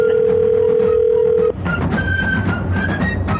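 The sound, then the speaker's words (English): A telephone dial tone hums steady and loud for about a second and a half as a number is dialed, then cuts off into a noisier stretch with brief, higher electronic beeps scattered through it. “Wow, we're really dialing some numbers, honey. Gracious. Boy, it's a lot.”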